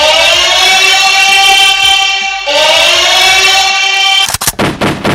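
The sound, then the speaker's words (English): Gunshot sound effect: a few sharp, loud cracking bursts in quick succession at the end, following a sustained bright electronic tone that holds steady and then restarts midway. “Shots fired.”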